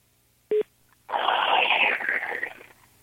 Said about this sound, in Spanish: ¿Y por qué suena así como de tut, tut? No sé. ¿Tienes alguien en otra llamada?